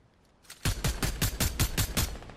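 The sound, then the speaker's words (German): Automatic gunfire in a video game: after a quiet start, a rapid, even string of sharp shots fires in quick succession, moderately faint, with no talk over it. “Wir schießen ihn runter, Leute.”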